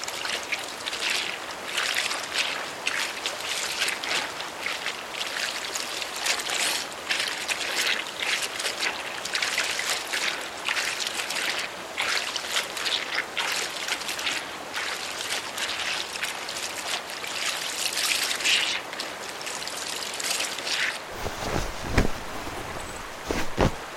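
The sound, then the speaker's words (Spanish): Clothes are washed by hand in water, with a steady wet splashing and trickling texture throughout, a few heavier knocks near the end, and no talk. “Voy a lavar un poco de ropa.”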